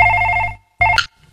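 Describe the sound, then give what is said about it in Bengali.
A landline telephone rings at home with a bright electronic trill: one long ring burst, a short gap, then a second, shorter burst that cuts off abruptly. “ল্যান্ডে যখন phone বেজেছে তখন তোমাকে চাইছে, যাও যাও ধরো ধরো”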